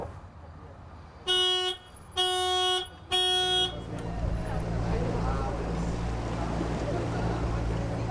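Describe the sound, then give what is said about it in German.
Small 15-horsepower motorboat heading through Rostock's city harbour: three loud, even horn toots ring out first, followed by a steady, low engine drone that continues to the end. “Mit 15 PS geht es erstmal durch den Rostocker Stadthafen.”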